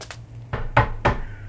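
Knocking on the door of a small wooden house, a few dull, hollow raps in quick succession over a low, steady hum.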